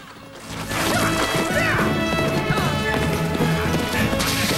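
Horses ridden down a dusty bank and back across a river give a loud, dense clatter of hoofbeats and heavy thuds that builds after a quieter opening and then runs steadily to the end.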